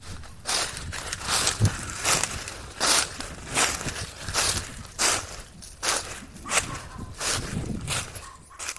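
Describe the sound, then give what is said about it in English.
Footsteps crunch over dry, crispy leaves in a steady walking rhythm, many crackling steps in a row at moderate loudness, with no talking. “walking over dry, crispy leaves reminds her of her childhood”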